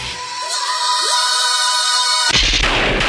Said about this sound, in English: Kaboom! Is the sound of a suicide bomber blowing up above Paris